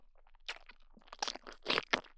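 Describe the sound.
Crunchy food being chewed: a series of crisp, irregular crunching bites, fairly faint, with short gaps and no talk.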